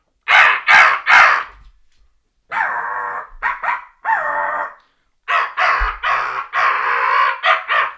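Harsh crow calls blown to make turkeys shock gobble: loud, raspy caws in rapid bursts. Three quick caws open the series, then after a pause come several more grouped caws, then a longer, faster run.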